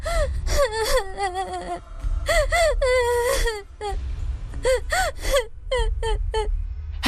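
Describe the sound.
A child wails and sobs in a wartime scene, with many loud, high-pitched crying bursts that waver up and down, broken by sharp gasping breaths.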